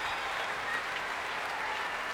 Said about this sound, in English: That cheer is for Michael Rosen, making his way back onto the stage.